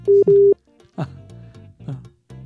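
A telephone tone sounds as a phone call drops: two loud, steady mid-pitched beeps in quick succession, the second lasting longer than the first, followed by quieter sound.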